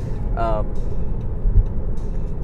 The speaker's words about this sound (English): So here we are driving the Tesla to tell you about the 2021.